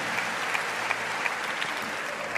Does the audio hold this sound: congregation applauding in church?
yes